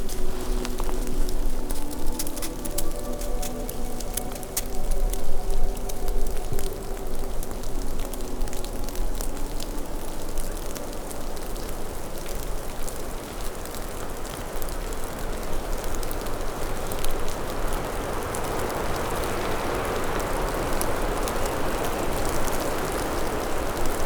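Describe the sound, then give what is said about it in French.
Snow and water droplets fall steadily across a very large clearing, making a dense, even patter and hiss that continues throughout. “De la neige et des gouttelettes d'eau.”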